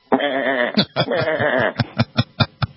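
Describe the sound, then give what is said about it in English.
A sheep bleats in two long, quavering, nasal calls, followed by a series of short, clipped bursts, all heard on their own without talk. “Yes, you heard the call of the cattle. No, that was a sheep, dude.”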